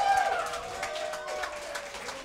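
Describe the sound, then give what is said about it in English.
Audience applause for a stand-up comedian at a talent contest: dense, steady clapping with crowd noise, fairly faint and continuous throughout. “And last but not least, with doing his amazing stand-up comedy, put your hands together for Sam.”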